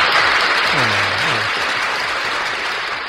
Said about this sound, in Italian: Radio ZL, alla quale mandiamo anche un applauso per aver scelto di condividere con tutte le altre radio questa trasmissione. All'applauso.